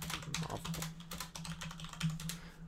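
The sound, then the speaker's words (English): Quiet typing on a computer keyboard, with many quick, irregular keystrokes in soft bursts over a low, steady hum. “I'm just going to have to type it out here.”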